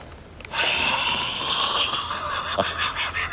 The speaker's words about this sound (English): You ever see the bad breath tie? Breathe on it.